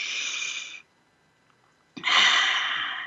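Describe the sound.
A group takes a deep breath together in a guided breathing exercise. Two long, breathy rushes of air are separated by about a second of near silence, and the second is louder and more sustained.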